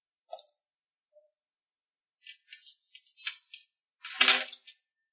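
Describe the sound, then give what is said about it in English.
Dice are thrown and rolling during a tabletop role-playing game session. Scattered sharp clicks lead into a denser burst of clattering near the end, with silence between the hits. “whoever's throwing dice around, please stop.”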